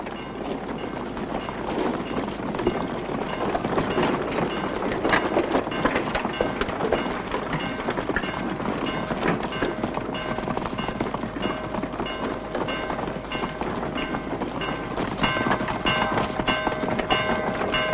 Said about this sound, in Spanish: Días después, unos jinetes escoltan a un coche de caballos que se acerca al pueblo.